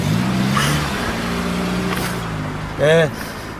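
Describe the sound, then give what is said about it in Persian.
A taxi's engine idles steadily as the car pulls up. The low engine hum runs throughout beneath people talking. “تاکسی برای نجمه نگه میده.”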